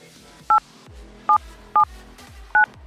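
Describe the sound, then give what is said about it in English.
Four telephone keypad dialing tones punched in while entering an access code for a conference call. Each is a short, clear dual-pitched beep, irregularly spaced over a soft background. “Access code or phone number you have dialed is incorrect.”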